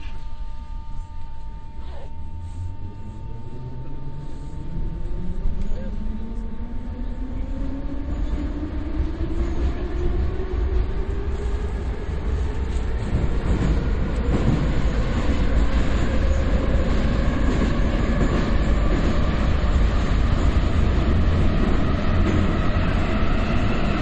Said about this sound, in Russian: Осторожно, двери зачиняются.